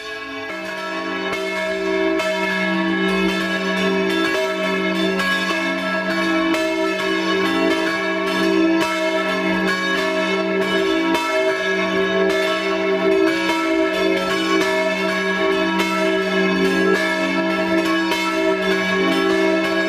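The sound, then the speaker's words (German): Bells of a late-baroque parish church at Innerberg, high above the Montafon valley, ring in a loud, continuous peal of overlapping, humming tones that hold steady throughout with no voices. “Sie hören das Geläute der Kurazikirche Innerberg.”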